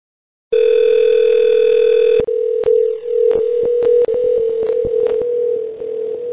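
Telephone dial tone while a call connects: a loud, steady tone begins after a brief silence, then continues underneath a series of sharp clicks and short dropouts.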